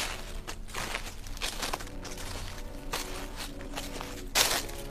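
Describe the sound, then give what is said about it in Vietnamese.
Soft, rustling, shuffling footsteps pace around inside a room, making a run of irregular brushy scuffs at a steady low level, with one sharper scrape near the end. “Tiếng bước chân sột soạt vẫn cứ luẩn quẩn ở bên trong.”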